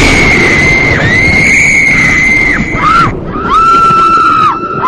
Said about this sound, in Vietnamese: Những tiếng kêu thét xé lòng của ba cô gái vang lên trong tiếng gió mưa.